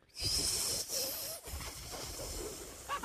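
Air is blown through tightly pursed lips in an attempt to whistle, giving a steady, breathy hiss for about three seconds with one brief break midway and only faint hints of a tone.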